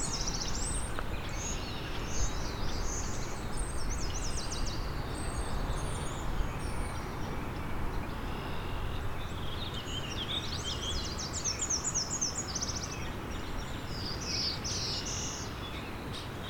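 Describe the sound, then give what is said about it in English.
Song of two black-throated blue warblers: thin, buzzy, high-pitched phrases in a few short bursts, in one early stretch and again later, faint over a steady background hiss. “Two black-throated blue warblers here. Doing their beer, beer, bees song.”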